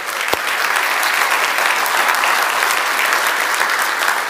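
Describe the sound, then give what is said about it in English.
A church audience applauds first-time guests with steady, sustained clapping that stays dense and even throughout. “Let's give our first-time guests a hand.”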